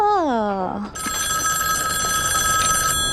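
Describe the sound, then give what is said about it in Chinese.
A telephone bell rings as a call comes in at a household that runs a silk shop. A brief falling vocal sound comes first, then a loud, steady, continuous ring with a bright metallic tone runs to the end. “电话，哦，电话来了，是不是？”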